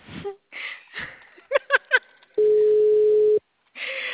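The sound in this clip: A telephone ringback tone sounds while someone places a call: one steady, mid-pitched tone lasting about a second. Excited voices and breathy exclamations come just before it, and talk resumes after.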